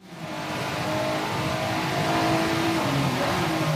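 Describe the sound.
A race car engine in a video game race on a wet track roars loudly and continuously, its pitch wavering as it revs and holds speed.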